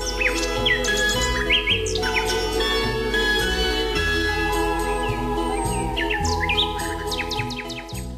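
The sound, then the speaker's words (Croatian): Common nightingale song: many quick, varied chirps and bright whistled phrases in rapid bursts, sounding loud and continuous over a steady low tonal hum. “Slavoj ili mali slavoj, Loscinia megarinhos, je vrsta ptica iz reda vrapčarki, Passeriformes, podreda ptica pjevačica.”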